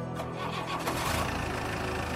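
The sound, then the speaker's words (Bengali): A car engine cranks and catches, then settles into a steady mid-pitched running note as the car pulls away, in a dramatised story; the engine sound is moderately loud and heard alone. “রাজকুমার গাড়িতে উঠে বসল, তার একটা পা সে তুলে দিল সন্তুর বুকের ওপর, তারপর হুকুম দিল চল।”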